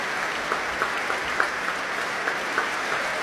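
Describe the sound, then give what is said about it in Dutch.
Concert audience applause for orchestra musicians: dense, steady clapping that stays fairly soft, with a few sharper claps standing out, and no voices. “groot applaus ook voor alle muzici nu van het orkest.”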